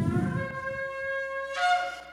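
A shofar sounds a single tekiah call: one long, steady ram's-horn blast with a bright, buzzy tone. It swells noticeably louder near the end and plays alone without talk.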